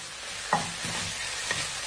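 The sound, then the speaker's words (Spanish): Onion sautéing with salt in olive oil in a deep pan gives a soft, steady sizzle throughout, with a few brief knocks and scrapes of stirring rising above it. “Calentamos un poquito de aceite de oliva en una sartén o una cazuela, siempre que sea hondo, un recipiente hondo. Y pochamos la cebolla con un poquito de sal.”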